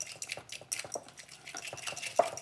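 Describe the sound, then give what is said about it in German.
Stirring an egg yolk mixture into a creamy dressing base in a bowl: many quick, light scraping strokes with occasional small clinks of the utensil, soft and continuous. “So, und jetzt stelle ich erstmal so eine kleine cremige Masse her.”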